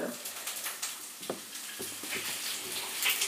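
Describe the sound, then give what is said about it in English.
Green beans sizzle as they cook for a side dish, giving a steady low crackling hiss broken by a few sharper pops and clicks throughout. “Now I'm cooking some green beans as a side.”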